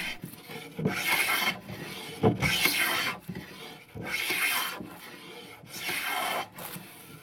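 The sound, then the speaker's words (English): Wood being rubbed smooth in a workshop: a few long, rasping strokes rise and fall in a steady back-and-forth rhythm, each a broad, gritty scrape with short pauses between. “This small place for making uh, the wood smoother and we, uh, we use oil here”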